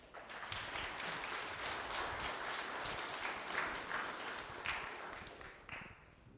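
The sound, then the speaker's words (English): Audience applause welcoming a woman up to share her story at a morning gathering: sustained, even clapping from many people that holds for several seconds, then thins out toward the end. “Would you give her a hand and welcome her up?”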